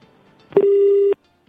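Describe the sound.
A telephone call is hung up, and a single steady mid-pitched disconnect tone sounds for about half a second, loud and clean, then stops abruptly into silence.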